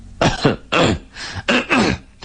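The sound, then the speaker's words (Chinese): A man's dry coughing and throat clearing, picked up through a microphone at a meeting: several harsh, loud bursts in an uneven rhythm, with short pauses between them. “白主任又咳嗽一阵儿，麦克风把他的干咳声放得好大，然后他清清嗓子”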